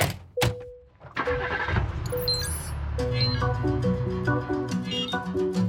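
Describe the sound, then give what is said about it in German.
A taxi engine starts and the car drives off, a loud, continuous engine sound with clinks and tinkling, bright tonal notes mixed in. “Hey, hallo, Taxi! Mach dich bereit! Komm mit ins Abenteuer, wir fahren los”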